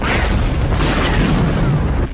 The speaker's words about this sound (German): Der Frachter ist explodiert.